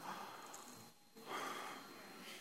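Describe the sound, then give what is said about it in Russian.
A deep guided breath during a church sermon, with a loud, airy inhale and exhale separated by a brief pause. “Сделай вот такой вдох-выдох. Но когда вдыхаешь, вдохни вечность в себя.”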